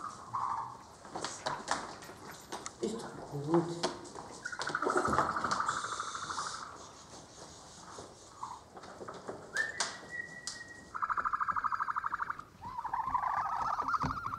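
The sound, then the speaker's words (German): Chicks peep while being caught, a run of many high, thin, whistle-like calls, some short and some drawn out, fairly loud and with no talk over them. “Die Küken lassen sich problemlos einfangen, versuchen aber gleich wieder auszubüchsen.”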